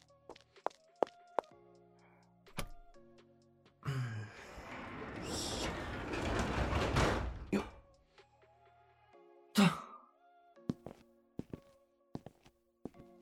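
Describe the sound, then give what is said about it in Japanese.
A shop's entrance door is closed: a few soft footsteps and a sharp tap, then a long rushing, rattling scrape lasting several seconds, then a heavy thunk, followed by more quiet steps and taps. “入り口も閉めてきちゃいます。”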